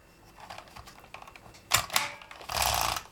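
Typewriter keys clack as letters are typed, a spread of quiet mechanical clicks building to sharper strikes and a longer rattling burst at the end, with no voices.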